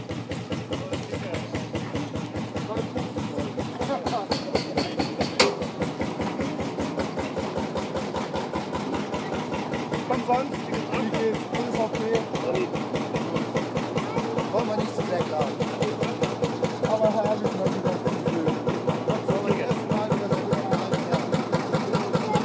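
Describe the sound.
A vehicle engine runs with a fast, even, pulsing throb that holds steady and grows slightly louder over time, with people talking over it.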